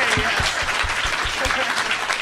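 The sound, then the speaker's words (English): A talk-show audience applauds the show's guests with loud, dense clapping. Individual claps stand out throughout. “Let's have a round of applause for all of my guests, you guys.”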